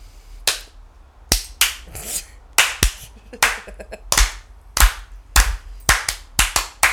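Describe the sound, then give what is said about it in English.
Hand claps in a slow clap building toward a standing ovation: many sharp, loud single claps, widely spaced at first and coming gradually quicker toward the end. “Slow clap to standing ovation.”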